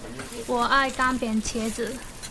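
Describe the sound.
Eggplant dry-frying with whole dried chilies while being stirred quickly in a pan: a steady, low sizzle runs beneath a person talking.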